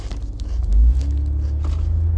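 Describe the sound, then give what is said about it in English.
A car drives at night, heard as a deep steady engine rumble and road noise that swells briefly early on, then holds at an even level. “Okay, now it's really dark. I'm not great on driving in the dark.”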